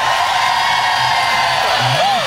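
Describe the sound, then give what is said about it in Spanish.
A stadium crowd shouts for joy at a religious gathering, a dense, sustained roar with rising and falling whoops that swell toward the end. “Eso, ese grito de júbilo.”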